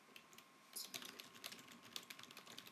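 Typing on a computer keyboard while entering a greeting into a game's chat: many quick, light key clicks in an uneven rhythm, faint and alone after a short quiet start.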